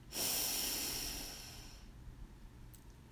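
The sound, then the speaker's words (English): A person takes one long, deep breath in during a guided breathing exercise: a loud, airy hiss that swells quickly, then slowly fades over about two seconds into near quiet. “And our last breath in, breathe in”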